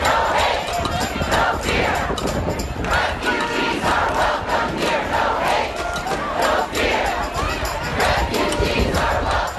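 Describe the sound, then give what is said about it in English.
A protest crowd at JFK International Airport in New York shouts and chants loudly and without a break, a dense roar of many voices holding steady from start to finish. “Over the weekend, airports saw stranded travelers and major protests. Here's a clip of a protest at JFK International Airport in New York.”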